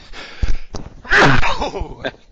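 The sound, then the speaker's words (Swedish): A person sneezing: a sharp gasping intake that bursts into a loud, noisy sneeze, with softer breath sounds around it. “Nu skulle jag nysa där också. Det brukar komma två i rad där.”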